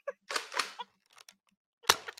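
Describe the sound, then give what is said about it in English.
A Nerf toy Uzi fires in a few short bursts of sharp, rattling clicks and pops, separated by brief silent gaps, the last burst the loudest. “Nothing's more intimidating than a 38-year-old man with a Nerf gun.”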